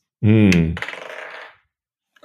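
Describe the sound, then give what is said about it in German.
Dice are rolled in a game, a quick run of rattling clicks that fade out over about a second, preceded by a short voiced sound and followed by a brief noise near the end. “Nächste Würfel-Action.”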